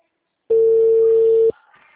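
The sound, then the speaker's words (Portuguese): A telephone ringing tone while a call is being placed: one loud, steady, unbroken mid-pitched tone lasting about a second, heard alone and followed by faint line noise. “Tô ligando pra ela.”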